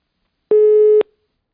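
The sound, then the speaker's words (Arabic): A telephone busy signal sounds after a disconnected line: one steady electronic tone lasts about half a second, then cuts off into silence. “الخط يبدو أنه فصل.”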